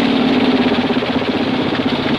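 Steady engine drone from military trucks with motorcycle escorts on a village road past stone houses: a continuous, even rumble at constant loudness with no clear separate passes.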